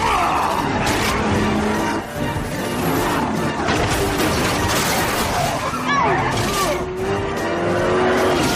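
Race cars colliding bumper to bumper, with a continuous loud engine roar, crunching impacts and squealing, skidding tires throughout.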